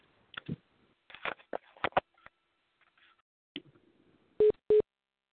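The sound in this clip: Two short, identical electronic beeps in quick succession, a phone signalling another incoming call, following a stretch of quieter scattered sounds.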